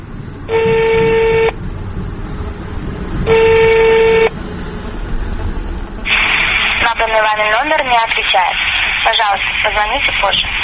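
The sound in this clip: Telephone tones from a call placed to an elderly man's son: two long, steady electronic tones separated by a pause, followed by a voice speaking over background noise.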